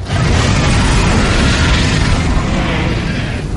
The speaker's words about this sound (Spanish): Drogon se yergue. Varys lo mira impresionado. Escupe fuego hacia él.